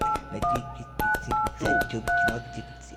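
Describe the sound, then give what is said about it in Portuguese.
Telephone keypad tones as a number is dialed: a series of short, bright two-note beeps, fairly loud and evenly spaced, each cut off crisply before the next, with faint background noise between them. “Vou ligar de novo pra ele, vou ligar de novo pra ele aqui. Vou ligar, cara, com licença, peraí. Vou ligar de novo aqui, vou ligar pra ele aqui.”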